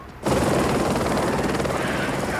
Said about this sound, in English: The helicopter lands in a cloud of dust at the Umbrella compound in the desert